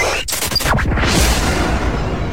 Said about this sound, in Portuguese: Explodiu.